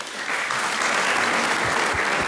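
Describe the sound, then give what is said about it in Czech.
Audience applause, with the Czech actor Jiří Suchý among those clapping: a thick, continuous wash of many hands that swells slightly after the start and then stays full and even throughout. “Tleská i Jiří Suchý, mistře legendo.”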